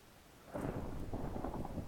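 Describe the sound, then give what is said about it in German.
Thunder in a video game: after a brief quiet hiss, a deep, steady rumble rolls in and holds to the end, broad and heavy with no voices. “Warum donnert es da eigentlich immer? Ist draußen schlechtes Wetter wahrscheinlich, oder?”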